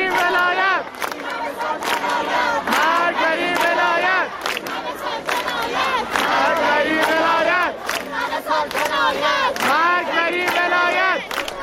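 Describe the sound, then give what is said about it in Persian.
A large crowd of university students chants in unison at a protest gathering at Isfahan University of Technology. The shouted slogans are loud and rhythmic and continue without a break throughout. “صدای همه دانشجویان دانشگاه صنعتی اصفهان رو میتونیم بشنویم.”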